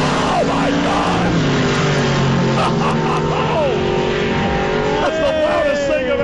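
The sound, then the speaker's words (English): Sportsman Modified race cars, including a late-1960s Nova, roar loudly and continuously, with engine revs sweeping up and down as they pass. Excited people talk over the din. “Late 60s these Nova. These are the Sportsman Modifieds now. Look at those lights, George. This is going to be loud? Oh, yeah. Okay. It's getting louder.”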